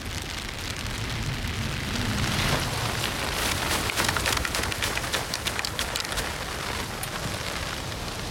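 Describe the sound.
A winter shower of rain and hail beats on an umbrella as a dense, steady hiss, with sharper ticks from hailstones growing more frequent toward the end.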